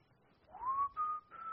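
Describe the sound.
A person whistling at home: a single note slides up and then holds as a clear, steady tone, broken into three short phrases, with no talking.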